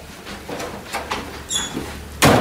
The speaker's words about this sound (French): Et voilà, elle claque encore, la porte.